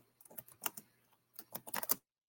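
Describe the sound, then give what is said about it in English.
Computer keyboard typing picked up by a microphone on an online call, two quick bursts of soft clicking keystrokes separated by a short pause, fairly faint and without talk. “it sounds like you might be typing something. So I'm just going to mute you for a second because I can hear the keyboard.”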